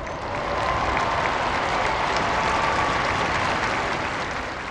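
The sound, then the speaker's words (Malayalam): Applause and cheering rise from a large crowd gathered in a square below a palace window as the Pope appears for midday prayer, a dense, steady roar of clapping lasting several seconds. “Francis പാപ്പ അരമനയുടെ മുകളിലത്തെ നിലയിലുള്ള ജാലകത്തിങ്കൽ പ്രത്യക്ഷനായപ്പോൾ ജനസഞ്ചയത്തിന്റെ കരഘോഷവും ആരവങ്ങളും ഉയർന്നു.”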